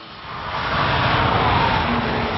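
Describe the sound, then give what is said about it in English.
Engine roar of an all-new silver Nissan GT-R sports car on stage at the Tokyo Motor Show, a loud, broad rumbling swell that builds over the first second and then holds steady. “What you hear is the roar of Nissan's passion for performance. What you see is its ultimate physical expression, the all-new Nissan GT-R.”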